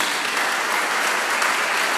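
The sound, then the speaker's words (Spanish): Sustained applause from an audience at a church service: a dense, even wash of many hands clapping that holds at a steady, fairly loud level throughout. “Qué dulce, le da un aplauso.”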